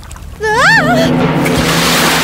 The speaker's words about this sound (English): Ah! Oh! Salty water? Did I somehow fall into the sea?